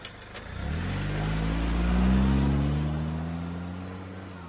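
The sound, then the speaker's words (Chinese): A car engine revs and pulls away, its drone swelling to a peak and then easing off as the car drives off, with no talk over it. “开车吧。”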